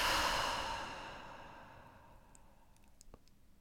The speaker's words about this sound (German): atme mit mir gemeinsam tief durch die Nase ein. Und wirklich lösend aus.